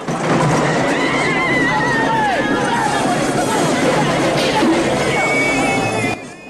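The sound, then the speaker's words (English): Horses gallop in a chase through a castle market, with a dense, loud commotion of pounding hooves, crowd noise and a whinny rising over the din. The sound is continuous for about six seconds, then cuts off abruptly. “Knights on horseback pursue them. They rumble through the castle market, knocking over stalls and sending peasants flying.”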